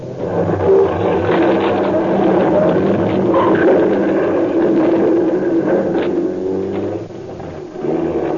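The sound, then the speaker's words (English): A car engine runs and revs steadily as the vehicle drives off in an old radio drama, a continuous low droning hum that dips briefly near the end. “That's right, kid. I had to drive through the back of the garage or else go out in the front.”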